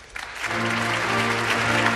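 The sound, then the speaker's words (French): Applause for Donald Trump under the Capitol dome in Washington at his presidential inauguration. The clapping swells in after a brief quiet start and stays steady and full, with a sustained low tone underneath. “Donald Trump applaudit à Washington sous la coupole du Capitole.”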